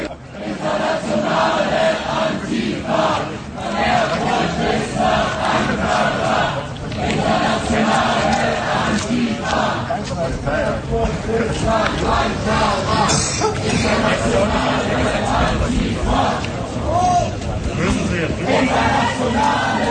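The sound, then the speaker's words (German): Detained protesters in Erfurt chant and sing while police hold them on the street. The mass of voices stays loud and continuous throughout, with slogans and songs running together. “Sprechchöre und Gesänge wechseln sich hier ab. Ich höre halt mal kurz rein.”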